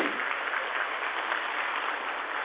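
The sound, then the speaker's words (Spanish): Audience applause at a political gathering, breaking out when President Chávez is named: dense, even clapping from many hands that continues unbroken and fairly loud throughout, with no talk over it. “Toda la mala propaganda que le hace la prensa al presidente Chávez, y cada vez que nombro al presidente Chávez hay aplauso.”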